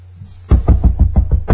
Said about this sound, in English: Keep knocking, buddy. Keep knocking, bro.